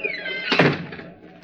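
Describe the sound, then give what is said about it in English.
A door being shut, a single heavy thunk preceded by a short, high whining creak, then fading quickly. “Yes, Mr. Pym. I called for you. Shut the door behind you.”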